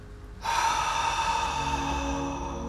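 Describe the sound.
A long exhale through the mouth during a guided breathing exercise begins after a short quiet, breathy with a faint sighing tone, and trails off slowly over about two seconds.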